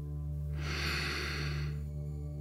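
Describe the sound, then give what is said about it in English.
A slow, deep breath during a children's bedtime meditation: one long, soft, airy rush of about a second, over steady low sustained tones. “First, we'll close our eyes and take a deep breath.”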